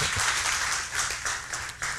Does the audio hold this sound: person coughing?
no